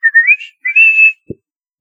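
A person's loud whistled charge call: two sustained high notes, the first sliding upward and the second held steady, followed by a single short thump.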